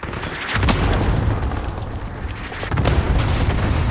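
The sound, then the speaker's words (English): Cluster strike explosions in a military shooter video game roll out as a dense, continuous low roar with sharper booming bursts breaking through and the rumble swelling again near the end. “Cluster strike away.”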